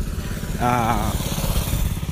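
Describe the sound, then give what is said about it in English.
Motorbike engine running with a continuous low, rough rumble and uneven pulsing throughout, and a brief wavering higher tone partway through. “We have a motorbike.”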